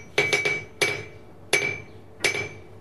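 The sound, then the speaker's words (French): A hammer striking a blacksmith's anvil while flattening iron to horseshoe size: six loud, ringing metallic blows, a quick triple followed by three evenly spaced strikes, each leaving a high ringing tone. “Alors, pour l'enclume, moi, il faut que je me recule avec le micro, parce que c'est très fort.”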